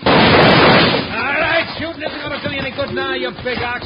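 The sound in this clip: A gunshot blast in a western radio drama opens with a loud, broad, noisy burst lasting about a second, followed by people talking over the fading noise.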